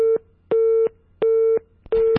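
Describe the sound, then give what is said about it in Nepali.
Telephone busy tone after a call was disconnected by a technical or personal problem: four steady, mid-pitched beeps in an even on-off rhythm, the first clipped at the start, with no other sound. “विनिताजी, तर उहाँको चाहिँ technical इस्युजको कारण अथवा personal कारणले गर्दाखेरि चाहिँ phone काटिएको छ”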